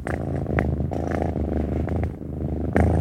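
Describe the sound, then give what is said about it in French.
A cat purring on a desk: a low, continuous rumbling purr that holds steady and fairly loud throughout, with no other sounds. “Le chat violet n'était pas plus tôt sur le bureau qu'il se reprit à ronronner.”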